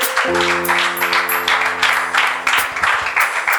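An audience at a worship gathering claps to welcome the head of a healing clinic, with pulsing bursts of applause over a sustained, held musical chord.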